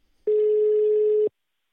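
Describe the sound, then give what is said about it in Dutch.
Ringback tone of an outgoing telephone call: a single steady, mid-pitched electronic tone lasting about one second, clean and alone, followed by silence. “het handigst is natuurlijk om even te bellen met degene die mij die foto heeft toegestuurd”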